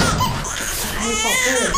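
A baby cries in a dense, busy mix with other sounds, its wailing harmonics clearest toward the end of the short stretch and sitting at a steady, fairly loud level throughout.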